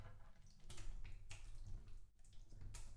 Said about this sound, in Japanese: では、体を洗っていきます。足をこちらに出していただけますか？